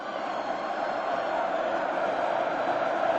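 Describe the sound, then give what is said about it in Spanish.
A packed San Fermín crowd roars as the gaiteros leave the town hall moments after the chupinazo, a dense, steady wash of voices without distinct peaks. “Se trata del cartel Gaiteros, que refleja la salida de los gaiteros desde el zaguán del ayuntamiento instantes después del chupinazo. Suena así.”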